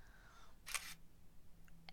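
A phone camera snapping a selfie, with a quick, faint electronic shutter click in a quiet setting and a softer click near the end.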